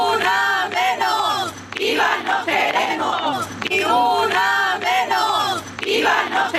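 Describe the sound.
A crowd of women chants in unison at a night protest march. The loud, rhythmic call repeats its phrase in steady waves with no break.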